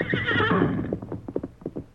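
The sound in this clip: Horses whinny in a long, shrill, quavering neigh, followed by uneven clip-clopping hooves as the animals are led along.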